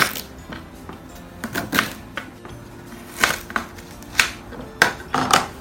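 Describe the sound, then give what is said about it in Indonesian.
Fresh ginger being chopped into pieces with a knife, a series of irregular sharp woody taps and clicks, some in quick pairs, fairly quiet and without speech. “Langsung aja dipotong-potong jahenya. Geprek sebenarnya lebih simpel, tapi oke, bisa dipotong aja.”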